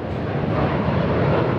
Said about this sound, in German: Vier Triebwerke und ziemlich viel Lärm. Eine Boeing 747-400 der israelischen Fluggesellschaft El Al steigt in den Himmel.